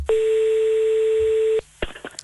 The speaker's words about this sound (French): On va appeler le 15 pour faire un point.